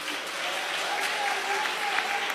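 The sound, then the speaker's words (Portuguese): A church audience claps during a sermon, a steady, dense wash of applause that holds evenly throughout without pause. “Porque pode bater as palmas para Jesus.”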